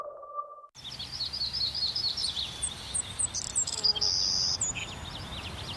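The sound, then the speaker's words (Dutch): Birds sing in high, bright chirps and trills, many overlapping calls over a steady hiss. A short faint tone sounds alone at the start, and the song then carries on to the end. “Blijf genieten van het gefluit van vogels.”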